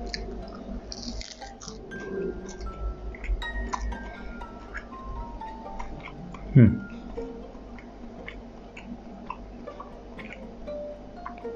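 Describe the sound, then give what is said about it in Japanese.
A crisp crunch of biting into a toasted sandwich filled with imitation crab, mayonnaise, cheese and a little onion, its spilled cheese browned into a cracker-like crust. The single sharp bite stands out over a steady low background. “チーズ挟むとどうしてもチーズがこう飛び出しちゃうんですよね。でもね、それがこうチーズおせんべいみたいになって美味しいんですよ。いただきます。”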